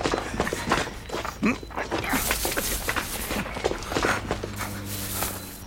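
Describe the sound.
Footsteps of a group pushing deeper into bushes while following tracks, a busy, irregular patter of steps and rustling with some voices and a low hum late in the scene.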